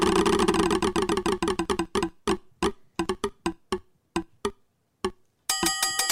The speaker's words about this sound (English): Let's spin the wheel for Jenny.